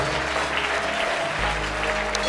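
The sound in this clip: A church audience claps during a pastor's sermon: dense, steady hand clapping that holds at an even level across the whole stretch.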